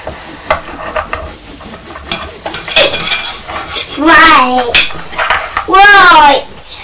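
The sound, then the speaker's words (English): A bowl is pushed along a table with a spoon wedged underneath, giving scraping, clattering tableware noises at moderate loudness, with a child's voice heard over the later scraping. “Have you put the spoon underneath the bowl and you're pushing the bowl along the table?”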